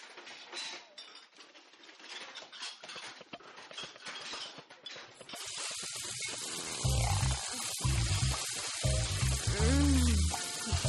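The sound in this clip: Food sizzles and crackles while being cooked in a kitchen. A steady frying hiss runs throughout and grows louder and denser about halfway through.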